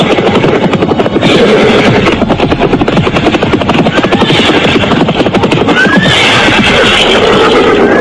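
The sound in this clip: A horse neighs while being ridden, a loud whinny rising above continuous rapid, rhythmic pounding that carries through the whole stretch at high volume.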